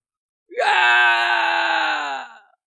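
A man screams loudly as a sword strikes him: one long wailing cry of about two seconds that lurches up in pitch at the start, holds strong and steady, then fades out.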